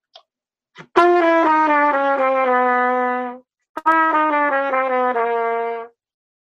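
A trumpet plays two slurred five-note groupings that step downward to the tritone, each a sustained, bright, loud phrase of about two seconds separated by a brief pause. No other sound accompanies it.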